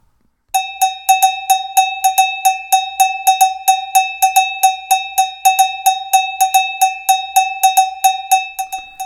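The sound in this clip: A cowbell struck many times in a steady, even rhythm, each bright metallic clank ringing briefly before the next, loud and alone.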